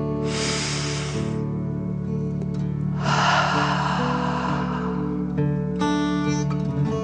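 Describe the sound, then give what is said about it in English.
A person takes slow, deep breaths in and out as part of a guided breathing exercise. Three long, airy rushes of breath play over a steady background drone. “let's take another deep dragon breath. Fill up your chest and belly, in and out.”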